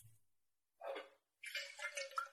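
Drinking water is poured for a guest in two bursts: a short splash, then a pause, then a longer, steadier pour, both fairly faint.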